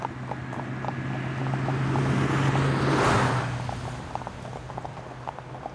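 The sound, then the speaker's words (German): A car approaches and passes on a road as horses are ridden at a walk. A smooth whoosh of tyres and engine swells to a peak, then fades, while light, steady hoof clip-clops tick throughout. “Da kommt ein Auto.”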